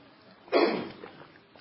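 A single short cough from a tickling throat, a brief breathy burst that fades quickly, fairly faint and alone.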